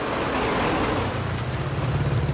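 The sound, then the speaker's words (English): Vehicles drive into a courtyard: a black staff car, two open-topped military vehicles and a motorbike with a machine gun mounted in its sidecar. A loud, steady engine rumble rolls on, with a low throbbing pulse near the end. “His attention is suddenly caught by vehicles streaming into the courtyard. A black staff car followed by two open-topped vehicles and a motorbike with a mounted machine gun in the sidecar.”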